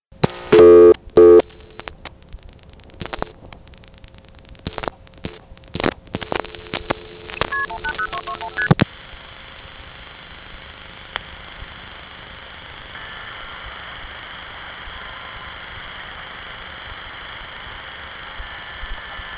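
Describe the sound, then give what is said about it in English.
Telephone dialing tones on a call to 180-221 routed toward Mexico: a burst of touch-tone beeps and line tones, then a long stretch of steady hiss from a silent line, broken by a brief click from a hook flash. “On this next call, I dialed 180-221, which went through, sounded like it got into Mexico, but it ended up on a silent line. Then when I started flashing my hook, it began to reset the trunk every time.”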